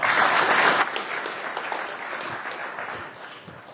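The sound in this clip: Audience applause welcoming a speaker to a conference session, loudest in the first second, then thinning and fading gradually into scattered clapping.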